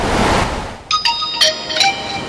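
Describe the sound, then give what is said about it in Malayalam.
A WhatsApp message notification chimes on a phone at a beach: three short, bright, ringing tones sound in quick succession after a wash of surf-like rushing noise. “എന്റെ ഫോണിലേക്കും ഭാര്യയുടെ വക message ഉണ്ട്.”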